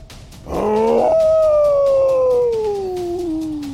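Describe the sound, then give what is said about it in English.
A long, canine-like howl sounds during a tabletop fantasy role-playing game. It opens with a rough, loud burst, then settles into a clear, sustained wavering tone that glides slowly downward in pitch and tapers off. “The howl in the distance moves closer.”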